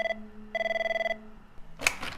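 A telephone at a night-time phone counselling line rings with a bright electronic trill: the tail of one ring, then one full ring, then a short noisy burst near the end.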